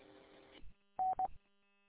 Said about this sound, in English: my phone's ringing here. I got a dispatch call there.